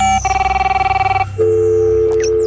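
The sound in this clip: A telephone call being dialed: a fast train of many short electronic beeps, then a steady, higher tone that holds to the end, loud and with no voices.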